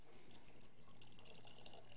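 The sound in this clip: Liquid poured into a container makes a faint, steady trickle and splash that runs unbroken throughout, with no voices.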